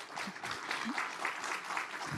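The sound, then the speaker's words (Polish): Applause at a conference, a quiet, irregular patter of many hands clapping that flutters unevenly through about two seconds. “Te brawa będą dla Państwa, dla tych wszystkich, którzy tu będą, nie dla nas”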